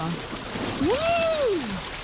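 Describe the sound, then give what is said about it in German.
Water splashing as someone goes down a water slide into the Herpine pool in Halver: a steady wash of water noise with a single clear tone that rises and then falls across the middle. “Einmal über die Rutsche rein in die Herpine in Halfa.”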